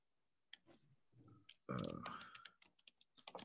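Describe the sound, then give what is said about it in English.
Computer keyboard typing sounds as a few irregular, faint keystroke clicks, with talk mixed in. “Here, let me type it in here.”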